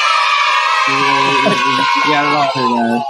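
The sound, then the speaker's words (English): A canned audience-cheering sound effect, like a studio crowd on a children's comedy show, roars as a loud, bright, sustained crowd noise while voices talk over its latter part. “Yeah, we're sparing no expense in the drops departments. I'm telling you. That sounds like something from Krusty, this audience.”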